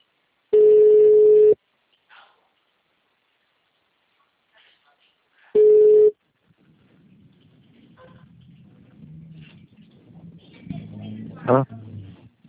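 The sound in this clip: Ringback tone of an outgoing telephone call: two long, steady beeps several seconds apart, then quiet line noise with faint, indistinct voices and rustles building toward the end.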